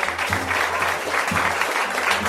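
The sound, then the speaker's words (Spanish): A whole town's crowd applauds and cheers, a dense, steady wash of clapping with bursts of louder claps that stays fairly loud from start to finish. “todo el pueblo, que vitoreaba y aclamaba a Pulgarcita”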